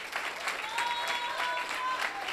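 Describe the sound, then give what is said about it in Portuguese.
A church audience claps in praise, brisk rhythmic hand claps in a steady, moderately quiet stream, with a faint sustained musical note held underneath. “Palmas para o Rei Jesus.”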